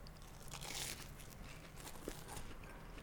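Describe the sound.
Faint crunching as someone bites into crispy, warm food with mayonnaise inside, with a few short crisp crackles that are clustered early and then scattered later, and no talking.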